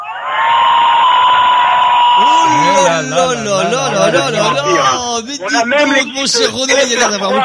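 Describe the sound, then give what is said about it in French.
About 800 people in an audience at Hoche making noise: a loud, steady buzzing horn tone, then a roar of shouts, whistles and cheering voices. “de faire un petit peu de bruit pour les gens de la radio qui ne me croient pas qu'il y a au moins 800 personnes aujourd'hui à Hoche avec nous.”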